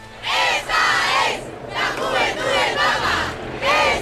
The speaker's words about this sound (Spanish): Este es el sonido de la calle.